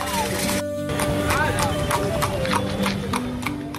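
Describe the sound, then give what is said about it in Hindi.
Horses trot in a traditional horse-drawn cart race, an ekka race held before thousands of spectators. Brisk, regular hoofbeats clatter steadily throughout, mixed with crowd noise and voices. “तो तमाम घोड़े, एक से एक नस्ल के घोड़े यहाँ पर दिखाई पड़ रहे हैं”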